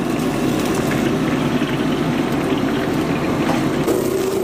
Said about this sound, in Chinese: 表面炸得金黄，捞出即可。